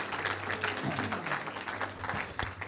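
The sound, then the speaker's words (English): Applause from a church audience welcoming two guest speakers at a Sunday night Pentecost service: dense, steady clapping throughout, with one sharper clap standing out near the end. “Why don't you put your hands together and give Anne and Mike a great big welcome as they come.”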